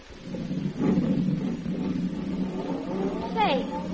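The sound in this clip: A car drives off with a low, steady engine rumble that swells slightly as it pulls away, with a voice heard over it.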